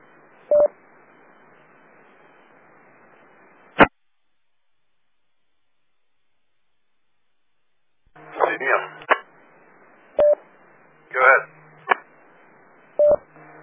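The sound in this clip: DTMF tones dial a phone number through a ham radio repeater autopatch: a few short, clean tone bursts separated by gaps, with a brief burst of noisy radio sound partway through.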